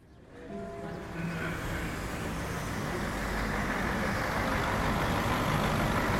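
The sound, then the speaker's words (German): A long-distance coach bus rolling into its bay, a low engine rumble and broad road noise that swell gradually over several seconds and then hold steady, with no voices. “Ein Fernbus rollt in die Haltebox.”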